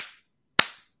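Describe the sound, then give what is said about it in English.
Hands clap once sharply, a crisp, bright smack with a quick decaying tail, preceded by the fading end of an earlier clap, with silence in between. “I'm going to make a clap like this. And with each clap, I'd like you to look to the extreme right, and then the next clap to the extreme left.”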